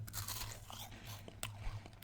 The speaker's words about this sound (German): Dann will ich esse jetzt noch eine Manna-Waffel. Gut, mit Zitrone, ne?